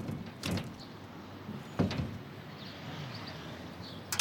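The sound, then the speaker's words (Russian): A window being opened by a young woman in a neighbouring room: two brief, faint scraping clunks, the second a little stronger, followed by quiet, steady background noise. “В соседней комнате девушка открывает окно.”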